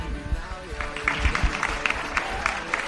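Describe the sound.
Applause greets an award presentation at an influencer awards night. Scattered claps land under ongoing talk, with a few sharper bursts along the way.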